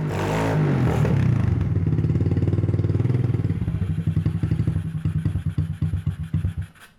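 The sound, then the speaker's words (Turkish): Motorcycle engine with clogged carburetor jets, running with a loud, steady mechanical clatter that breaks into separate uneven beats, slowing and fading until it cuts out at the end. “Evet, çalışıyor. Motorun evet, sesi takır tukur güzel.”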